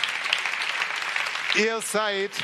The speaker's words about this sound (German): Geben wir ihm mal allen einen kräftigen Applaus.